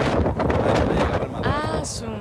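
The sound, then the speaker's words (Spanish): Wind blowing and buffeting the microphone, a loud, rough, continuous roar with gusty rumbling that stays strong through to the end. “Espérate que pase el viento”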